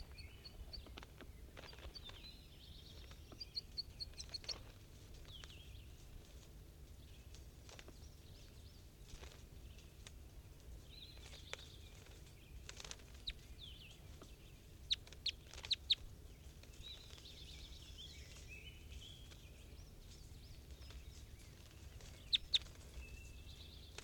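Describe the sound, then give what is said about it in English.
Caged birds calling: many short, high chirps and clucks scattered irregularly over a faint, constant background hiss, with a few sharper calls standing out. “these are the birds in the cage at 9:45 a.m.”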